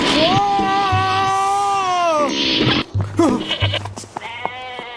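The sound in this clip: Lamb bleating in a long, wavering, fairly loud cry, followed by a few shorter bleats with brief voices mixed in.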